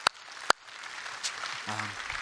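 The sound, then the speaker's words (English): Audience applause for children at a church service. Two sharp, isolated claps open it, then a soft, scattered patter of many hands slowly builds. “let's just let the kids know how thankful we are they're here today. Let's give them a round of applause.”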